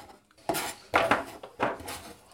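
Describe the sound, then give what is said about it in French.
A utensil scrapes and clinks against a salad bowl as crumbled duck confit filling for nems is mixed, in three rough strokes at a steady rhythm, with no talk. “je vais mettre le confit de canard dans un saladier que j'ai émietté. On mélange tout.”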